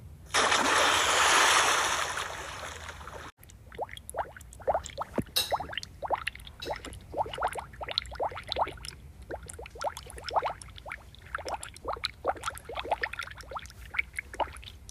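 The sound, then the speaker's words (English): A loud, rushing splash from jumping into a deep swimming pool, then many quick bubbling, gurgling pops of water that continue steadily to the end. “Wow, it's really cool swimming in a really deep swimming pool.”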